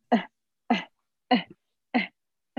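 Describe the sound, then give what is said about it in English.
A voice imitates a distressed baby's noisy, fast breathing: five short grunting breaths at a quick, even rhythm, each a voiced catch with a rough edge, alone without talk. “if the baby is making a noise with every single breath and the breaths are fast and regular, that's a sign that the baby's in distress. Mm-hmm. So if it's like,”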